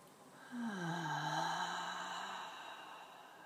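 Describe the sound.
A long, faint, voiced sigh breathed out through the open mouth after a deep inhale through the nose, during a guided relaxing breath, sliding gently lower in pitch before it fades. No one talks over it.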